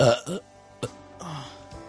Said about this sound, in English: hang on, I have to burp.